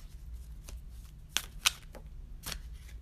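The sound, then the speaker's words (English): Tarot cards being shuffled, a few quiet, papery riffles and flicks interrupted by two brighter, sharper snaps of card edges, all faint and irregular in rhythm. “And this card that I pulled out is going to help guide you to manifest that.”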